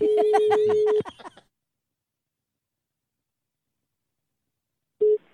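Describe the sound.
Ringing tone of an outgoing phone call: a steady low tone lasting about a second with a voice over it, then about four seconds of silence before the tone starts again briefly.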